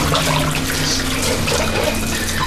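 Dishes are being washed under a running tap, heard as a steady, continuous rush of water at an even level throughout.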